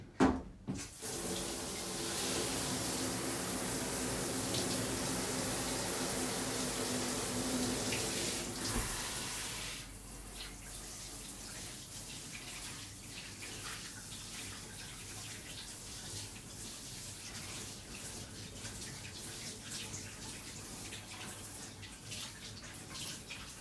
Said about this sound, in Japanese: シャワーで端だけ洗って、